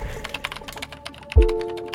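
Typing on a computer keyboard during coding, a brisk, irregular patter of light keystroke taps with one heavier thump partway through, then the clicking carries on.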